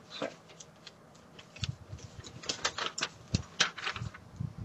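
Sheet of paper torn off a notepad, heard as a faint, irregular run of crisp rustles and small ripping crackles over a couple of seconds.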